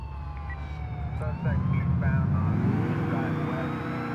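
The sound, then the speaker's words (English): A police car siren wails in the video game GTA IV, gliding up and down in pitch over a loud, rumbling car engine that swells partway through. “Oh, that's a cop car.”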